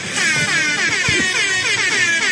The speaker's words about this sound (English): Air horns everywhere.